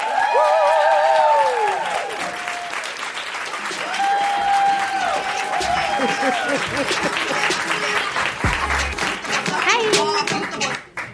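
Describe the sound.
An audience applauds loudly as a guest is introduced on stage, with whoops and shouting voices rising over the clapping. The dense applause keeps going and then tapers off quickly at the end.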